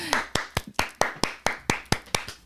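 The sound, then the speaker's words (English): Hand claps ring out in a steady run of evenly spaced, sharp strikes, each with a brief decay. The rhythm stays regular throughout, and no voices are heard. “One clap in the crowd for a new series that we're starting called The Female Psychopath.”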